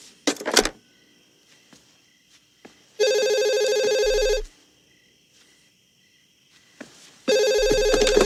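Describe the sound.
A telephone rings in two loud, steady bursts of electronic trilling, separated by a few seconds of near silence with faint clicks.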